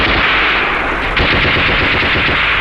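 Machine gun fire in a battle: one loud, continuous burst of rapid automatic shots with no pause, dense and harsh throughout.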